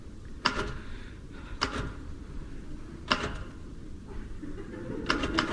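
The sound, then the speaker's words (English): Muffled typewriter keystrokes from someone typing while wearing gloves: a few sparse, soft clacks spaced over several seconds against a faint steady hiss. “My hands are cold. Anyway, what's wrong with typing in gloves?”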